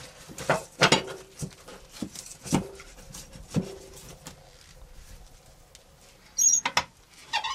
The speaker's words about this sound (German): Ich lege da gerade schnell ein frisches Holz auf.